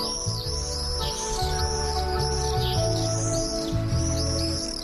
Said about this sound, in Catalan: El falciot comú, conegut com a vencejo en castellà, és una de les aus més ben adaptades pel vol